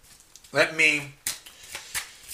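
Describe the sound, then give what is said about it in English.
Tarot cards are shuffled for a reading, a brief spoken phrase followed by a few crisp, papery riffling bursts in quick succession. “I want to pull some more cards. May I have some more cards for Gemini, please?”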